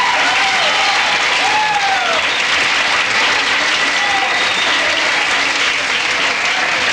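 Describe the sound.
Audience applause welcoming a rock-and-roll performer: dense, even clapping that holds at a steady loudness for about seven seconds, with a few whoops rising above it.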